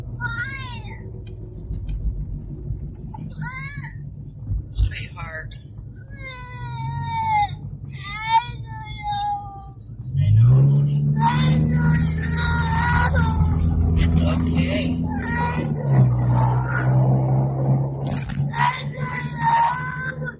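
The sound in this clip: A young child sobs and cries while being held in his mother's arms, with many high, wailing cries and shaky sobbing bursts that are loud and ragged. An adult voice can be heard at times underneath the crying.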